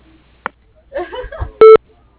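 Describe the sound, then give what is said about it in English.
A single short, loud electronic beep from an answering machine signalling the start of voicemail recording, preceded by a faint click and brief muffled sounds. “If you'd like to leave a message, please wait for the beep.”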